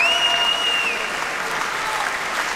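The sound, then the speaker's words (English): Enthusiastic applause from a Dallas Symphony concert audience after a set of Schubert and Strauss songs, a loud, continuous wash of clapping that stays full and even for the whole stretch. “And as you can hear from the audience, a very enthusiastic response”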